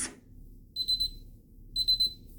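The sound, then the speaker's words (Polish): A kitchen robot's alarm signals a finished recipe step while bread is being made: two bursts of three quick, high-pitched beeps, separated by a short pause, faint and alone. “Za około 7 sekund krok będzie wykonany. Usłyszymy stosowny alarm.”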